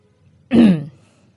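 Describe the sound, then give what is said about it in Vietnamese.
A man clears his throat once in a short, gravelly burst lasting under half a second, with near silence before and after. “Bố của Nam hắng giọng.”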